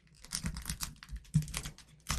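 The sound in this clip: Packaging of a trading card pack pulled open from the back: quiet crinkling and crackling rips in short, irregular bursts.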